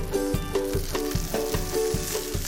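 Scallions sizzle in a pan with red wine and star anise, giving a steady, moderate frying hiss broken by regular rhythmic pulses, likely stirring, that recur about every half second.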